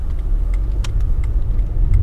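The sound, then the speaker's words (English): A car drives along a rural two-lane country road on Route 75 with a steady, loud low rumble of engine and tire noise, plus a few faint higher ticks; no voices. “Driving down Route 75 in southeastern Frederick, you get a sense of just how rural a lot of this county is.”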